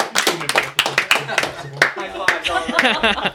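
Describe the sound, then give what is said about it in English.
A high five hand slap in front of a live studio audience: sharp, bright smacks among excited talking voices. “Good job. Yay! High five.”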